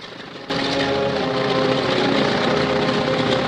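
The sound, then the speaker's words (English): A propeller plane's engine bursts into life after about half a second as the aircraft sets off across grass. It settles into a loud, steady droning buzz that holds almost to the end. “Woody climbs into his plane, and Jim stands back as he starts up the engine and sets off across the grass.”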